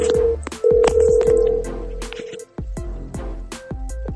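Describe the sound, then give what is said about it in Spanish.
Ringback tone of an outgoing phone call, a steady mid-pitched tone sounding in a few bursts, laid over a beat-driven music bed with sharp, regular percussive hits. “se me ocurrió llamarlo en este preciso momento. Vamos a ver si me contesta y qué puede decirnos Spechaleri”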